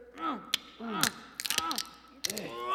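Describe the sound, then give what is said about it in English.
Prying of boards imitated on an accordion, a few squealing creaks that bend up and down in pitch, each broken off by sharp cracking snaps, with irregular gaps between them. “So let's pry those boards off and see what we have. Accordion player, sound the prying the boards off.”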